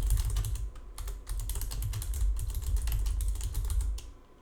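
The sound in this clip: Rapid typing on a computer keyboard, many quick key clicks in a steady flurry with a brief pause early on, then continuing briskly to the end.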